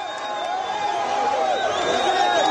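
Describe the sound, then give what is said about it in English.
A crowd of supporters welcomes presidential candidate Moise Katumbi at a campaign stop in Goma, eastern DRC: a steady, dense roar of many voices, with raised tones running through it and no break. “Supporters are welcoming presidential candidate Moise Katumbi in eastern DRC's capital Goma this week, one of many recent campaign stops for Katumbi”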